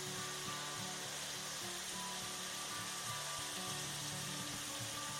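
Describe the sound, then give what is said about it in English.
Food left undisturbed in a pan hisses with a steady, fairly quiet frying sizzle, accompanied by a low constant hum underneath and no stirring sounds. “So now, don't push it all around, just leave it again to fry off. So I'm standing here and I'm just leaving it be.”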